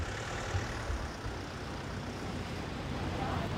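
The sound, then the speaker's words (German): A delivery van drives off with a steady low engine rumble and broad road noise that holds at an even level for the whole stretch, with no voices. “Der Fahrer vom Lieferwagen fährt noch rechtzeitig weg.”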